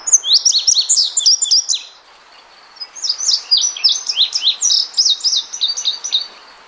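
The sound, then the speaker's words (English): Indigo bunting song: two bright bursts of quick, high chirping notes, each made of paired, repeated phrases, separated by a short pause, loud and clear with no voices. “Well, let's listen to an indigo bunting.”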